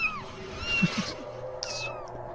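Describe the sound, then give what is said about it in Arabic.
Cats meowing in a horror radio story: a few drawn-out, wavering meows rise above a steady low background noise. “صوت قطط.”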